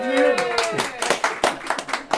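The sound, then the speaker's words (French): Applause at the ribbon-cutting opening of a new blood donation centre in Cholet: a voice speaks briefly, then a run of sharp, uneven hand claps follows with voices faintly underneath. “Elle a ouvert ses portes il y a quelques heures seulement et le premier d'honneur a coupé le ruban sous les applaudissements.”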